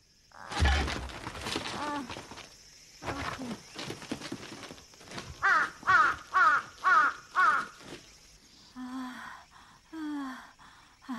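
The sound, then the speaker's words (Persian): A bird cawing harshly, with a steady run of about six loud, rasping caws in the middle, framed by other scattered squawks and rustling before and after. “این پرنده چه شده بود؟ اونا هیچ وقت همچین کاری نمی کنن. عجیبه.”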